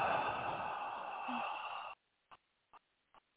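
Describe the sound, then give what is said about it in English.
A slow, deep exhale after holding the breath during a guided relaxation exercise: a steady, soft rush of air lasts about two seconds and then stops abruptly, followed by three faint, brief clicks in near silence. “And now I'll take one more deep breath in and hold. And exhale.”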